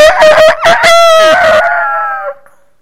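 A rooster crows once in a long, loud, strained call that holds steady and then trails off, fading away over the final moments with no other sounds.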